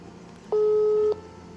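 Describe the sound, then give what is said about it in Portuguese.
Single telephone tone as a call to a businessman is dialed: one steady, clear beep lasting about half a second over a low background hum, then quiet again. “Então eu vou ligar pro empresário, ok? Deixa eu ligar pro empresário. Deixa eu pôr ele no ar aqui.”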